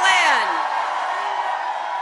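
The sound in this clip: A crowd yells during a political speech: a single loud whoop with a falling pitch opens over a sustained roar of many voices that continues steadily to the end.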